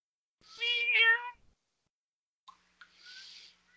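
A large domestic cat of about 20 pounds lets out one long, loud, wavering meow. After a silent pause come a couple of brief, fainter calls and a softer, breathy cry.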